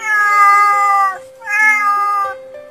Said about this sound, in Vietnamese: Tiếng mèo vang lên đầy tội nghiệp.